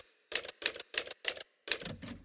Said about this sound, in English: sometimes I have to backspace over words and type X's through them because I don't have any white out.